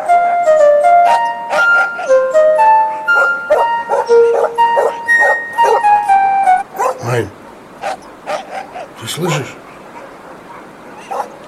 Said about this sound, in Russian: Проклятые собаки, чё они, как ты думаешь, разбесились?